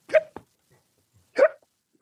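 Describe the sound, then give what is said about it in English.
A voice imitates a drunk man's hiccups: two sharp, throaty hiccup sounds about a second apart, with a small catch after the first. “And just before he says hello, he hiccups and he slams the phone down.”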